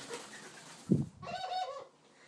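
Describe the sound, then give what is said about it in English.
Ringneck doves give their laugh-like call: a short low burst, then a rolling, harmonic chuckling phrase of moderate loudness. “Cody is trying to, they are our ringneck doves. Cody is trying to entice Princess into a game. And that, what sounds like laughter, is actually their call.”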